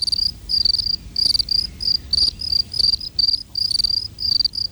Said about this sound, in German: Und wie überwintern die Grillen, die ja auch zu den wechselwarmen Tieren gehören?